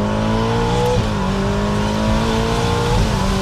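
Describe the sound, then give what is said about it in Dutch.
A Ferrari Amalfi Spider engine roars at full throttle after a downshift to second gear at about 70. The sound is a loud, continuous, strongly tonal drone, with brief shifts in pitch along the way. “En dan schakel je bijvoorbeeld terug naar z'n 2 bij 70 en dan vol op het gas.”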